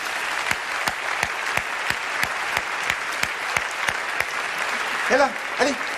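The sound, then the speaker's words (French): Audience ovation: a steady wash of crowd applause with sharp, evenly spaced claps beating out a regular rhythm through it, and a voice briefly speaking over the clapping near the end. “ça mérite une ovation.”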